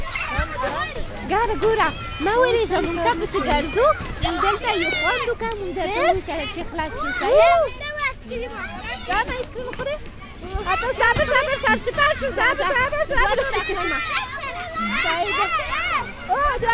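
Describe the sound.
Children playing and running around a playground slide at night, their high-pitched shouts, squeals and chatter overlapping continuously from start to finish at a steady, lively level.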